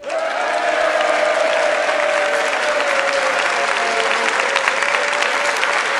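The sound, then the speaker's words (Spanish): A large studio audience at a comedians' panel show applauds, a dense, loud and steady wash of clapping that holds at an even level for several seconds, with no one speaking over it. “estoy acompañado de 758.342 personas que suenan así”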